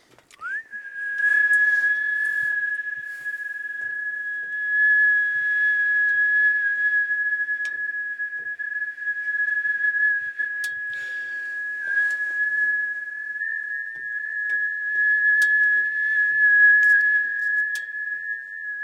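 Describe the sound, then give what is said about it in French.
A steady, high-pitched whistling tone like tinnitus holds one pitch almost unbroken for nearly twenty seconds, fairly loud, over faint scattered clicks and rustles. “C'est malin, on croit qu'on a des acouphènes. Non, ça, c'est vraiment pas drôle comme bruit.”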